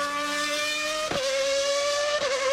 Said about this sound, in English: That's what happens when Formula One reaches Cape Town.